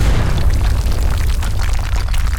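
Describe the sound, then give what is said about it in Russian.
A Minecraft creeper explosion: a loud, dense, rumbling blast with heavy low-end roar and crackling noise that holds strong for a couple of seconds with no gaps. “а мгновение спустя взорвался крипер”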